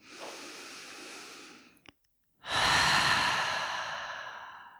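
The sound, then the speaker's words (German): Deep breaths during a guided relaxation exercise: one long airy breath, a short pause, then a louder, longer exhale through the open mouth that slowly fades. “Und nimm ein paar tiefe Atemzüge ein und aus. Und gerne mal durch den geöffneten Mund hier loslassen.”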